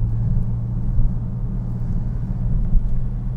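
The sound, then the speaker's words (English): A car pulls away in traffic as the gas pedal is pressed. Its engine gives a loud, steady low rumble throughout. “You can make the gas pedal press down a little harder. Just press the gas pedal a little harder, you can do it.”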